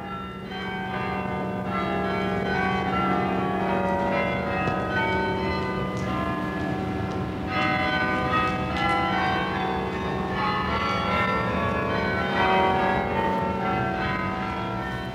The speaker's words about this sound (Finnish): Vanhan tornikellon täyden tunnin lyönnit ja liikenteen ääntä ei oikeastaan melua, pikemminkin tasaista kohinaa, vanhan Amsterdamin keskustassa.